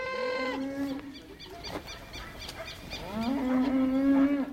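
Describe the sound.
Cattle grazing on open pasture in Uruguay give two long, deep moos, the first fading out and the second rising in strength after a quiet gap.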